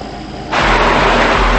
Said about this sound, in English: Linda drives alone in the dark.